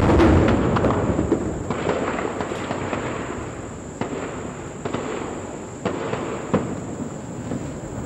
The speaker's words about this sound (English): Lying on the floor in my room because there is heavy shooting outside.